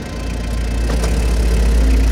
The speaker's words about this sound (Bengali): পুরনো গাড়িটায় উঠে স্টার্ট দিল